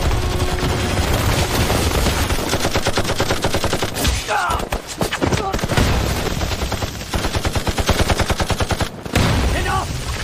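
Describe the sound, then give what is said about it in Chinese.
Heavy machine gun fire from at least three guns during an assault on a school. Loud, dense, rapid bursts rattle almost without pause, overlapping into a continuous barrage. “火力至少3挺重机枪，咱们被钉死了。”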